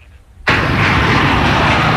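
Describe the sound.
An airplane landing sound effect bursts in abruptly after a brief quiet moment, a loud, dense roar that holds steady and unbroken to the end.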